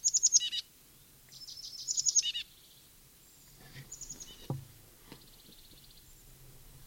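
Titmouse trill: two bursts of rapid, high, evenly pulsed notes, followed by a few fainter, shorter calls against a quiet background.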